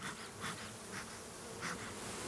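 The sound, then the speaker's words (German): Thousands of honey bees swarm an opened brood box after the honey super is lifted off the hive, giving a dense, steady buzzing drone with a few brief swells in loudness. “Jetzt nehme ich den Honigraum runter und wir schauen in den Brutraum. Hier sehen wir tausende von Bienen.”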